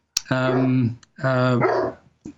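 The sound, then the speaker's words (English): A dog barks outdoors on a rural farm property: two loud, drawn-out, strongly tonal barks, almost howl-like, with a sharp click at the start and a short yip at the end, with no talking. “I think your dog thinks there's something you missed out. Yes, my dog is out here. I forgot to lock him up, so we might hear my dog barking every now and then.”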